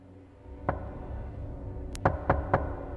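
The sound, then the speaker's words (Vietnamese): Knocking on a door at night, dull and low: a single knock, a long pause, then three more knocks in a slow, even rhythm over a steady low background noise. “Bước được 2 bước, cái tiếng gõ cửa lại vang lên đầy kỳ quái.”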